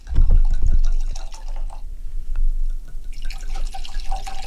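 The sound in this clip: Wine being poured into glasses for a small tasting, a gurgling, splashing stream of liquid that is loudest at the start and then settles into a softer trickle, with no talk over it.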